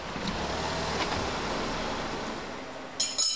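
Test car being driven onto a chassis dynamometer at an emissions testing lab, a steady low vehicle rumble broken near the end by a couple of brief, sharp metallic bursts.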